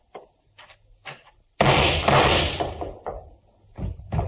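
A door is opened: a few soft knocks or taps, then a sudden loud, rough burst lasting over a second, followed by several more thumps and bumps.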